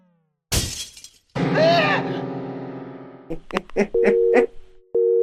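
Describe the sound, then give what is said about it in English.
A karate light bulb shatters in a video game: one sharp, loud burst of breaking glass, then a sustained electronic tone and a few short, high game bleeps. “I love the karate light bulb noise, too.”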